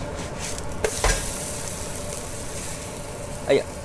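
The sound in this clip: A sourdough kimchi pancake sizzles steadily in a frying pan as it is flipped, with a few short knocks and scrapes rising above the even frying hiss.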